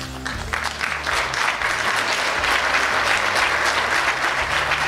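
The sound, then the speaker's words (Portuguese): An audience gives loud, steady applause, a dense continuous patter of many hands clapping that holds at an even level throughout. “Palmas pra Cadillacqua”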